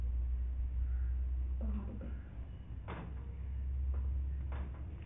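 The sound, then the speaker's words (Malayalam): A door being closed, with a few dull knocks and thumps over a steady low hum; a person talks in the background. “ഞാൻ വാതൽ അടയ്ക്കുന്നു എന്ന് പറഞ്ഞു. ഞാൻ ഇപ്പോൾ വാതൽ അടയ്ക്കുന്നു.”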